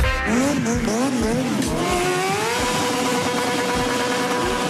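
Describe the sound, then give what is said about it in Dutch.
Motorcycle engines revving at a motorcycle fair in Utrecht, a loud and unbroken roar whose pitch climbs and falls repeatedly as the throttles are worked. “de motorbeurs in Utrecht is weer van start gegaan. En dat gaat gepaard met veel geluid.”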